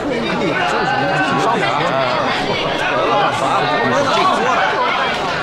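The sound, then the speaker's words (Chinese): Dense crowd chatter fills a busy late-night skewer restaurant. Many overlapping voices merge into a steady, loud hubbub that holds throughout. “你说这么晚了，约到这种串店来上课，能听清楚吗？”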